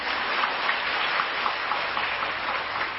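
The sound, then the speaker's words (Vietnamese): Audience applause at a Buddhist teaching, a steady rain-like patter of many hands clapping evenly throughout, sustained with no voices. “Vỗ tay.”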